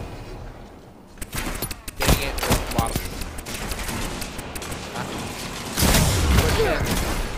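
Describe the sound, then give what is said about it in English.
Gunfire from the shooter video game Destiny 2: many rapid shots and bursts crackle in overlapping volleys, loud and dense, with heavier booms toward the end. “Where am I getting shot from? The right? Oh, come on.”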